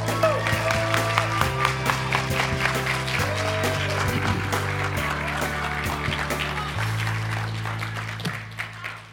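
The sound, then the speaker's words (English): A crowd applauds warmly as a guest speaker is welcomed on stage. Steady, dense clapping holds at an even loudness for several seconds, then slowly thins toward the end. “Now, would you guys welcome with enthusiasm our good friend Jim Hilton?”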